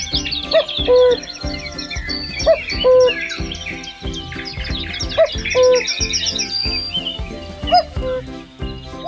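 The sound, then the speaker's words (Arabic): Sparrows chirping in many bright, repeated tweets and short calls, set over a steady, rhythmically pulsing background with sustained tones. “يأنسون بالعصافير تزقزق في الأجواء”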